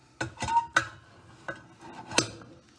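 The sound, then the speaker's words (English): A lid is picked up and set back on a French press of freshly brewed coffee, giving a few light, faint clinks and taps with quiet gaps between them. “So I'll pick up this lid”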